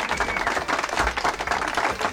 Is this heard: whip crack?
no